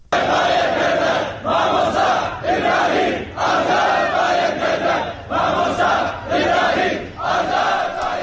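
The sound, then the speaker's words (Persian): A protest crowd in Sanandaj chants against the arrest of two Sunni clerics. Many voices shout a short slogan in unison, loud and steady, repeating in a regular rhythm roughly every second. “روز جمعه 14 بهمن شماری از مردم سنندج در اعتراض به بازداشت دو روحانی اهل تسنن این شهر دست به تظاهرات زدند.”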